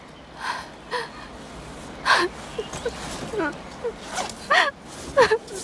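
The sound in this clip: A daughter cries and whimpers while being comforted: a few short, breathy sobbing gasps and catches, some with a falling pitch, spaced apart over a quiet background.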